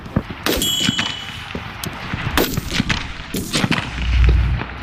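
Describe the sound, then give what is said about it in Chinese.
Gunshots fired in precision rapid-fire target shooting: a few sharp, loud cracks at uneven intervals, with clanking noise between them and a low rumble near the end. No one speaks. “重新瞄准目标，再次激发。”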